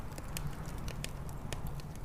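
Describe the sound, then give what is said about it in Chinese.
A dying campfire in a video game gives soft, scattered crackles and pops over a low, steady rumble, faint throughout. “火慢慢的也快熄灭了， 火焰越来越小了”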